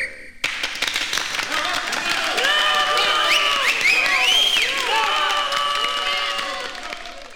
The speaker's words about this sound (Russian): И дедуктивный метод – это метод века, гарантирует успех. Аплодисменты!